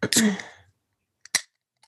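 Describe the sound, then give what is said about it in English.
A can of ginger lime drink cracks open after a moment of talk: a small tick, then a sharp, brief burst of fizzing hiss, followed by a faint tick. “Okay, I'm cracking up the ginger lime.”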